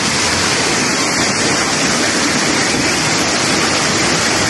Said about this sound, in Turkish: Her taraf taştı. Kimi aracında mahsur kaldı, kimi motosikletini taşkın sularına kaptırdı. Motorlar su götürüyor.